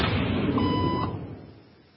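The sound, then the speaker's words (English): A single steady electronic beep sounds for about half a second. It is the signal for people in a room to stand during a hidden-camera social experiment, and it sits over broad background noise that fades toward the end. “Beep, and she stood up.”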